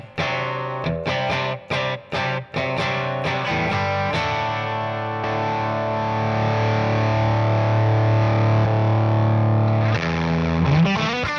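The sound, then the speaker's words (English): An electric guitar plays through a Hi Power Opus amp with a heavily fuzzy, distorted boost. A few choppy staccato chords come first, then sustained notes ring out over a held low tone, and a final chord lands near the end. “That's with that really fuzzy boost, which sounds really cool.”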